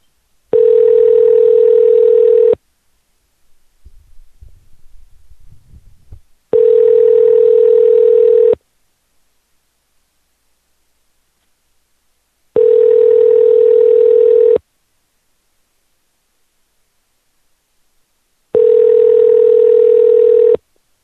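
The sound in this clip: Ringback tone from a telephone calling a tree service: four loud, steady buzzing tones of about two seconds each, spaced by longer silences, with faint rustling in the first gap.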